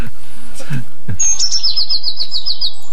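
A tit sings in a field: a quick run of many high, thin repeated notes at a steady rhythm, fairly loud, after a few low thumps.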